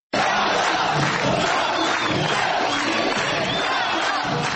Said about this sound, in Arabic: هكذا جاء صوت الجمهور البابلي مدويا في المسرح الإغريقي في مدينة بابل الأثرية بعد انتهاء عرض مسرحية حزب ديمقراطي